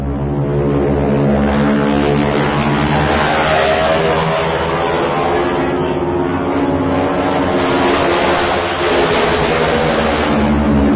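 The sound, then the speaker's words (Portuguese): A T-6 propeller airplane's engine roars as the aircraft dives, with its propeller tips reaching supersonic speed. The loud, continuous, buzzing drone is dense with harmonics and holds steady for about eleven seconds without voices. “depois pode colocar na edição aí o barulho do motor do T-6 no mergulho. É, quando ele faz o mergulho, aí a ponta da hélice daquele avião ficava supersônica.”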